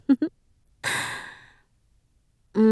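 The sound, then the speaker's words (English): One slow, warm breath is blown out as a soft, airy exhale lasting under a second, with brief bits of voice just before and after. “Nice warm breaths. To warm him up, you know?”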